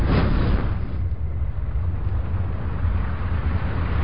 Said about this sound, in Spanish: Un chorro llameante salió de la boquilla de lanzallamas y golpeó los libros contra la pared.